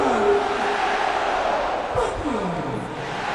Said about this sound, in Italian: I pochi tifosi presenti all'Olimpico comunque incitano a gran voce Mattia Destro.